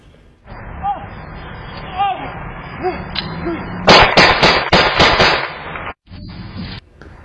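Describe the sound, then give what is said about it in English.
Gunshots fired at night, picked up by a homeowner's Ring security camera: a rapid burst of about six sharp, loud cracks after a stretch of muffled voices and background noise. “this is video from a homeowner's Ring camera the night of the shooting, and you can see who appears to be Jett running out of frame as shots are fired.”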